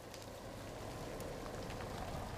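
Steady rain falls while sheep are loaded onto transport, making a dense, even hiss of drops that holds without a break throughout.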